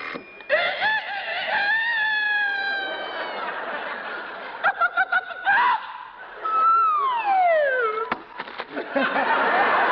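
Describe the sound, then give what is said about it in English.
A rooster crows as part of a breakfast-making contraption, with drawn-out pitched calls followed by a few quick choppy bursts and then a long falling tone, all fairly loud with nothing else in the background. “at 5 a.m., the alarm clock rings, the rooster crows, the hen wakes up and lays an egg right in the frying pan.”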